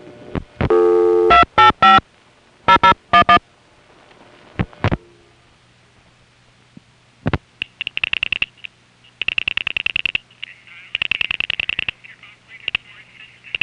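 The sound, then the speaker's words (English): Dial pulsing from a crossbar tandem telephone exchange sending digits over a call line: several trains of rapid, evenly spaced clicks separated by quiet gaps, with a faint recorded announcement under the later bursts. “The crossbar tandem that this call goes through is dial pulsing the last 5 digits, and you can hear the recording in the background during the last 3.”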